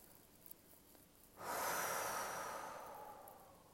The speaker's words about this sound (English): Take another deep breath.